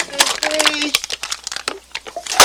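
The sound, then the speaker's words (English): Cans are crushed by hand and tossed down by an angry character in a film scene. Many crinkling, crunching bursts of varying loudness come and go, with a voice heard between and over them. “There's a scene when he gets really mad and he can't really express it. He's trying to stay calm and he crushes cans and then tosses them down.”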